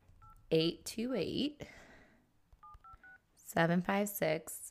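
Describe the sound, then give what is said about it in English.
Touch-tone keypad beeps from an iPhone 6 being dialed: one short beep, then a quick run of about four more beeps, with a voice talking before and after them. “Let me get my iPhone 6 out. Okay, so I want to dial this correctly.”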